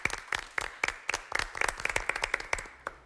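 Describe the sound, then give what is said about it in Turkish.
Studio audience applause on a quiz show, honoring a late great comedic actor: dense, steady clapping from many hands with sharp individual claps, fairly loud and sustained throughout, with no voices. “Büyük ustayı önce alkışlayalım.”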